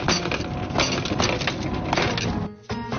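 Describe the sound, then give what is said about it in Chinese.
A hammer cracks open a baked clay crust around foil-wrapped lamb neck. Dense, crunchy cracking and crumbling with many sharp knocks runs throughout, fairly loud, and briefly drops away near the end. “泥坨子烤好了，再怎么开呢？我们 拿锤子把敲开，”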